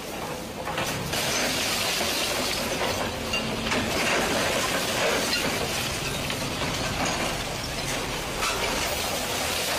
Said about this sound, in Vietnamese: Tiếng máy xúc, tiếng cần cầu